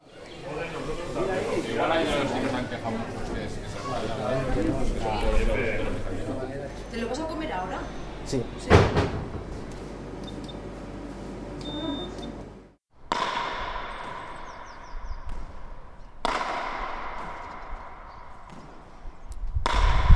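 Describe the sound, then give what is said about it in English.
Loud cracks of a pelota ball smacked with a wooden racket against the wall of a huge frontón court in a Basque village. A few sharp impacts with a short ringing decay follow a stretch of background voices. “That's the sound of a guy practicing his pelota in a frontón.”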